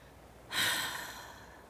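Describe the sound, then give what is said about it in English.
A single slow exhale during a breathing exercise starts suddenly as a breathy hiss, then gradually tapers away, heard alone. “And then I exhale”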